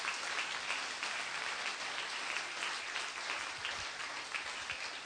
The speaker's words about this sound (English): So would you put your hands together and welcome them.